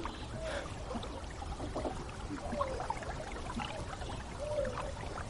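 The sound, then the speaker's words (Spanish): Water laps and trickles steadily around a small boat drifting along a river, a soft continuous wash with no voices. “Continúan navegando por el río uno frente al otro sentados en la barca.”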